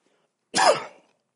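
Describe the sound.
A single short cough merging into a throat clearing, a sharp, rasping burst lasting about half a second, alone against silence.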